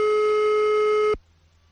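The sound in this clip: A continuous telephone tone on a failed call connection holds steady and loud for about a second, then cuts off abruptly, leaving only a faint low hum.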